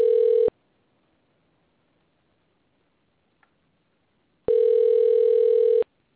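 Telephone line tone sounds as a call is placed, two steady buzzing bursts, a short one at the start and a longer one after a stretch of silence, with a tiny click between them.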